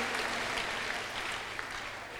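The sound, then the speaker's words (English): Faint, dense applause from a church audience clapping for the children at a morning service. The quiet clapping stays even for about two seconds. “Can you give your children a round of applause this morning?”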